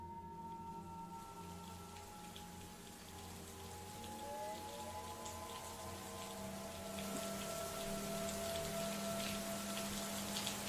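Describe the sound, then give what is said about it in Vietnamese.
Heavy rain pours down as a faint, steady hiss with scattered pattering drops, growing slightly denser toward the end; no thunder stands out. “Tiếng cười quỷ quái trên thành giếng vang lên, rồi sau đó là tiếng sấm sét và cơn mưa ầm ầm đổ xuống.”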